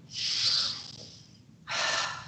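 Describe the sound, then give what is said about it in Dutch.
A deep breath drawn in and let out, heard as two soft, airy rushes of breath. The first is longer and fades away, and the second starts abruptly after a short pause. “Adem heel diep in en heel diep uit.”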